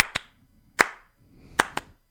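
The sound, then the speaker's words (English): Sharp hand claps ring out alone in a quiet gap, a few crisp slaps spaced unevenly, some landing as quick pairs, loud and bright against faint background noise. “Are you clapping? You got it right. That's right. And it's a 2-in-1. It's a 2-in-1 clap.”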